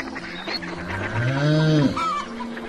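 A single bleat from livestock on a farm that keeps milking cows, goats, chickens, ducks and quail. The call is wavering and mid-pitched, goat-like, and rises out of soft background noise for about a second.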